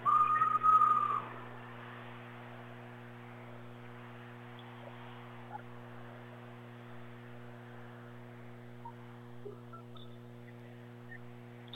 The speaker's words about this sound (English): And the referee blows the whistle.